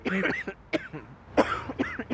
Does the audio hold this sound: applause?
no